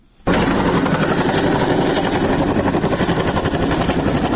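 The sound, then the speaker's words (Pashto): American Chinook helicopter in flight toward a district in northern Helmand: a loud, dense roar that starts abruptly and holds steady, with fast rhythmic rotor thumping running throughout and no voices. “د هلمند په شمال کې دغه نارامترین ولسوالۍ ته په یوه امریکایي چینوک هلیکوپټر کې په تللو”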